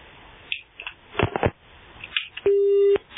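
A telephone busy tone follows a caller's cut-off call. Crackly line noise and clicks come first, then a single steady, mid-pitched beep of about half a second.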